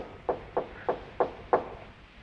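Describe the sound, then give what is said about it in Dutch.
Five evenly spaced knocks on a door, each a short, firm, mid-pitched thud, about a third of a second apart, with nothing else heard. “Zie, ik sta aan de deur en ik klop.”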